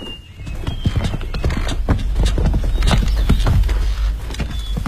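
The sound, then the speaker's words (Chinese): Clip-clop of horse hooves as a horse is ridden behind a sedan chair: many quick, uneven hoof strikes in a steady, loud rhythm throughout, over a low rumbling background. “索图骑马随着阿玛轿子后面”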